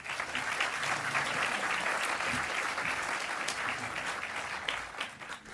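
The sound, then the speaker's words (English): Audience applause at a formal evening event attended by officials, welcoming a guest speaker: dense, continuous clapping at an even level that thins slightly near the end. “Please make Kathy very welcome.”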